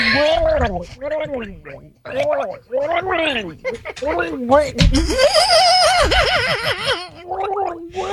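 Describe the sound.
A voice imitates shark mating noises with loud, gargling, watery warbles. The pitch wobbles up and down through many continuous bursts with no pauses.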